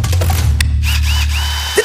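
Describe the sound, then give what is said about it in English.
A Makita multi-tool runs with a loud, steady, low buzzing drone for almost two seconds, with a few faint ticks over the hum. “Makita Multi-Tool.”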